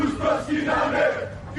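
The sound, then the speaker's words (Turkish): A crowd of Greek Cypriot protesters chants slogans against Turkey and Turks. Voices shout together in short, loud, rhythmic bursts, a massed chant that swells and eases slightly toward the end. “Türkiye ve Türkler aleyhine sloganlar attılar.”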